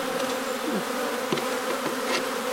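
Honeybees buzzing around an open hive, a dense, continuous droning hum with a few individual bees swooping in pitch as they pass, steady and moderately loud throughout.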